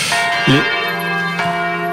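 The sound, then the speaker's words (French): Church bells ringing a few days before Easter, with bright overlapping metallic tones and a couple of clear strikes that sustain into a long, shimmering ring. “Les cloches sonnent. On est à quelques jours de Pâques.”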